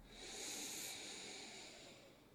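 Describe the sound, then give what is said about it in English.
A deep breath drawn in through the nose during a guided breathing exercise: one long, soft, airy inhale with a hissy, nasal texture, swelling over about two seconds, quiet and alone with no talk. “let's take a real deep breath. The deepest breath you've taken all day. In through the nose, fill up.”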